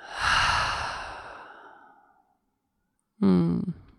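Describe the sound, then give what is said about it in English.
A long, breathy exhale through an open mouth during a guided breathing exercise, fading over about two seconds into silence before a brief voice starts. “Inhale. Open mouth. Exhale.”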